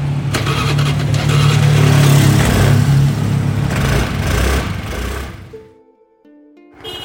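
A motorbike engine while riding on a road in Bali, Indonesia, a loud, steady, rough drone that holds for several seconds and then fades and dips near the end.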